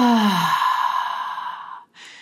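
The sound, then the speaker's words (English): Deep breathing during a calming exercise: a long, voiced exhale like a sigh drops in pitch at the start and fades out, followed after a brief gap by a short, breathy burst. “Breathe in with me and breathe out.”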